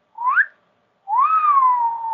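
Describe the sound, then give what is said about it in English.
A loud, clear two-part wolf whistle, heard alone: a short note sliding upward, a brief pause, then a longer note that rises and slowly falls away. “this wolf whistle”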